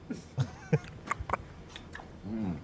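Mouth sounds of someone tasting vanilla ice cream from an inverted spoon and aerating it: a few wet smacks and clicks, then a longer slurping draw of air at the end.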